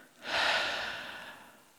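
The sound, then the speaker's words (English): A single big audible breath rises quickly to a loud, breathy rush, then fades out slowly over more than a second. “One more big breath in and out.”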